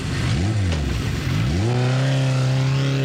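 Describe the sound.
A motorcycle engine revs loudly, its pitch climbing, dipping and climbing again before holding a steady, high droning note until the end.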